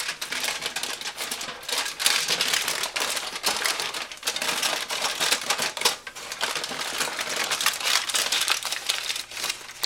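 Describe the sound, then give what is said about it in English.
Aluminum foil crinkled and folded into a tent around a beef stick, with steady, dense crackling and rustling throughout, moderately loud and alone. “And then take the aluminum foil and make a tent around the beef stick.”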